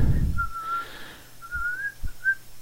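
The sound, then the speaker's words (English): Whistling, a clear, fairly high tune in a few drawn-out phrases with gentle pitch bends, heard alone after a brief low thump at the start. “Just whistle amongst yourselves.”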